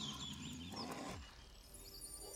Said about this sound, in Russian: Что сказал этот медведь, который в эфире вот прорычал?